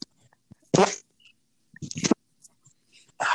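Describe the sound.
Fart noises: a few short, raspy, sputtering bursts separated by pauses, moderately loud against a quiet background.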